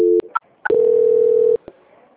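Telephone tones during a call transfer: a brief steady dual tone, a couple of clicks, then a single steady tone held for under a second before cutting off with a final click. No one speaks.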